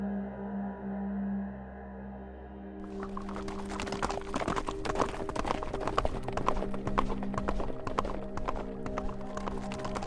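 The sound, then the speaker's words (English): Horses gallop with hooves clip-clopping in a fast, dense patter of many sharp strikes. The hoofbeats start abruptly after a few seconds of steady tonal hum and keep up a loud, driving rhythm to the end. “The guard captain saw William and his friends galloping toward them from behind”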